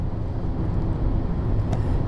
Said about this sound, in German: Wir sind jetzt auf dem Weg zur Autobahn und fahren über die Holstenbrücke und verlassen so langsam Hamburg.